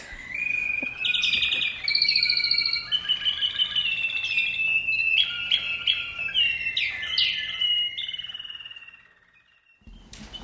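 A songbird sings in a bird song competition: loud, varied whistled phrases and rapid trills follow one another almost without a break for about eight seconds, then the song fades away to near quiet.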